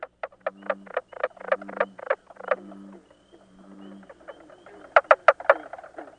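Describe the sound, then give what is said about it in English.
Mink frogs call in the northern lake country with many quick, hollow knocks like tapping on wood. They come in uneven runs over a faint low hum, with a louder flurry of knocks near the end. “What is the mink frog? Yeah, it's a northern species found in the northern lake country areas like in upper New York and Canada, upper Michigan. And it does sound like somebody tapping on wood.”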